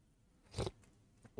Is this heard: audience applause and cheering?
no

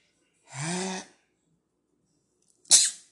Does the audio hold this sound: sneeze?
yes

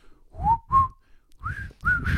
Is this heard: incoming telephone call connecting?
no

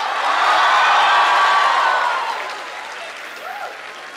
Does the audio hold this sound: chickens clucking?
no

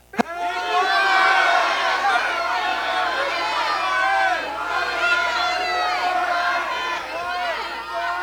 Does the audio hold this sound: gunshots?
no

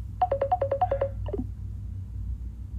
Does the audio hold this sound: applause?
no

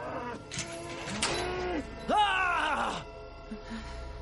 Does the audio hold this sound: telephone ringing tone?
no

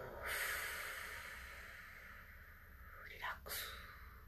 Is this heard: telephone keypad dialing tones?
no

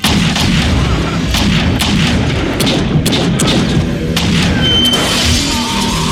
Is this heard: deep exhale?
no

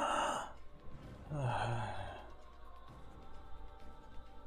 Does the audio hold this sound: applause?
no

